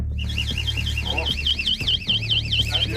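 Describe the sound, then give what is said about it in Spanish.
A house alarm goes off with a loud electronic warble. Its high-pitched tone sweeps rapidly up and down without a break over a low, rumbling background. “Esa es la alarma.”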